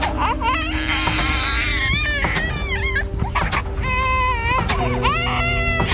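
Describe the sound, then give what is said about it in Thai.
A baby cries hard and without stopping, a wavering wail that rises and falls in pitch through many breathless bursts, loud over a busy background. “โอ้ทำไมเขาร้องไห้ขนาดนี้นะ”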